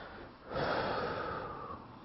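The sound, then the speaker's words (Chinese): A deep breath taken during an acupoint tapping relaxation exercise: a single long, airy rush of breath lasting about a second, steady and fairly loud, with no talking. “深呼吸一下。”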